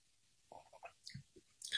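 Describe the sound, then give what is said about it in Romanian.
A mouthful of coffee is sipped: a few short, soft, wet slurping and mouth noises, separated by brief pauses, with no talking. “Ia să beau un gât de cafea, să vedem dacă ajută.”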